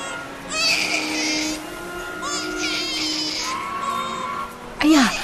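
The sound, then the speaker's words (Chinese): A month-old baby abandoned outside a train station cries loudly in high wailing bursts, ending with a sharp wail that rises and falls. “这是哪一家的小宝贝哭得这么惨啊”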